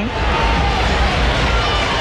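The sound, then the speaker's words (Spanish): Stadium crowd applauding as a Toluca football player leaves the pitch during a CONCACAF Champions Cup match: a dense, steady wash of clapping and crowd noise that holds at an even level throughout. “Ahí va Vega y mira el aplauso de la gente. Están entregadísimos a su ídolo.”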